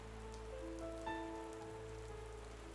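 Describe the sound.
Steady rain falls on a day of prolonged downpour that turns dirt roads muddy, a soft continuous patter throughout with faint sustained tones beneath, and no talk.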